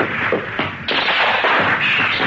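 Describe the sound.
Rockets fired at a giant teapot go off as a few quick thuds and bursts in close succession, short and punchy with noisy crackling tails.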